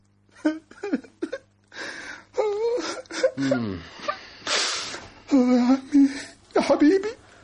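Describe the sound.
A man cries over his dead uncle, loud wavering sobs broken by sharp gasps and moaning wails that come in uneven bursts.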